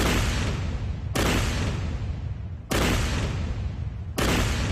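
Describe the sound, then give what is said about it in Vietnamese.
Volleys of massed gunfire from soldiers firing together on command during a battle for a hill. A few heavy, booming bursts come about a second and a half apart, each a sharp crack that fades into a long rumbling decay. “Các đồng chí, chuẩn bị loạt ba, nạp đạn. Nạp đạn xong. Chuẩn bị. Bắn.”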